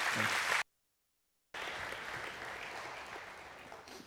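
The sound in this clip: Church audience applauding to welcome a guest preacher to the platform: dense, even clapping that is cut by a short silent gap and then resumes steadily to the end.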